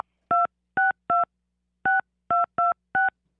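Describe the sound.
A touch-tone telephone dials a number: seven short, clean electronic beeps, each a steady dual-tone chirp, come in an uneven rhythm with brief silent gaps between them.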